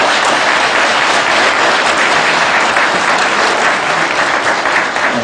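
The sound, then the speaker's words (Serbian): Audience applause welcomes a visiting professor at an evening gathering in Vancouver: a loud, dense, continuous patter of many hands that stays even from start to finish. “profesora doktora Miloša Kovića, ako može vam aplauz”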